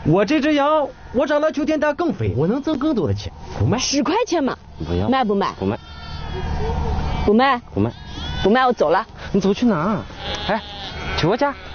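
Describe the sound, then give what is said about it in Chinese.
Sheep bleating from a herders' flock of milking ewes kept on pasture. Many loud, quavering calls overlap and follow one another, each wavering and tremulous in pitch. “这个羊有奶啊，等我们到了夏牧场，我们就有羊奶喝，喝到秋天，这个羊还能长得更肥”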